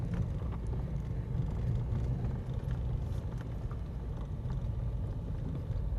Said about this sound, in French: Heureusement qu'on a un véhicule tout-terrain.